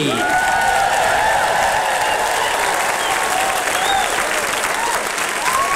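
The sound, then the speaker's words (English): An audience gives sustained applause to welcome a host onto the stage at a celebration night. The dense, loud clapping stays steady from start to finish, with scattered cheers and whoops rising above it. “Please, ho mai te paki paki, a round of applause for Te Kariori Ngāti Whātua as we welcome to the stage your host, the irrepressible Karen O'Leary.”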